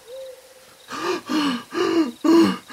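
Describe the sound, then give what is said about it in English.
A person panting hard to catch their breath after running, with four loud, evenly spaced gasping breaths, each carrying a hoarse, slightly wheezy tonal edge. “After you don't even know how long, you stop to catch your breath.”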